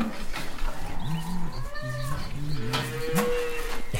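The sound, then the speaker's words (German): Cows lowing in a barn in the morning, with several short, overlapping animal calls in a steady run, some low and some higher-pitched, over a constant background murmur. “Guten Morgen, ihr Kühe.”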